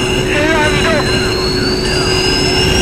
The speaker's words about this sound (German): Gebannt sahen die drei Fragezeichen auf dem Bildschirm zu, wie die Kapsel landete und im selben Moment an den Stahltrossen auf dem künstlichen Mars aufsetzte